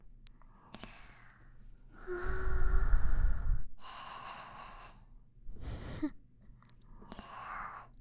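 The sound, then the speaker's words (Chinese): Trembling, shaky breathing, a few uneven soft breaths around one longer, louder breath, with a breathy, unsteady quality and no clear speech. “不是挺能躺吗？怎么现在连呼吸都在发抖啊？”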